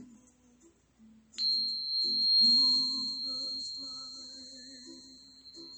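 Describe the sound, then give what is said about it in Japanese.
Two tuning forks struck against each other give a sharp strike, then a sustained, pure, high ringing tone with fainter lower partials that slowly fades over several seconds. “まずは音叉と音叉を鳴らした時の音です。”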